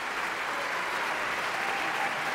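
An opera audience applauds at a curtain call with a standing ovation, the clapping a dense, steady roar of many hands that stays even throughout.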